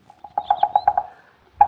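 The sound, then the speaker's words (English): Clatter from a red-headed woodpecker in an oak tree in a front yard at daybreak: a quick run of about eight sharp, ringing pulses, then one more after a short pause. “We didn't get a wink of sleep after daybreak this morning on account of that... Melanerpes erythrocephalus. Yeah, huh? Well, that's the Latin name of the red-headed woodpecker.”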